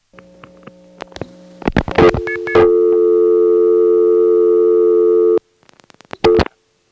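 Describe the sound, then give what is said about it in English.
Step-by-step telephone exchange switching after dialing 5, seizing a trunk from the Eastlake office to a downtown tandem: clattering relay clicks, then a loud steady tone held about three seconds, followed by more scattered clicks and a short tone burst. “Here's what happens when you dial 5 from the Eastlake 37 or Drake step.”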